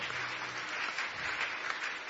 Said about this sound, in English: Clap for them, Koinonia.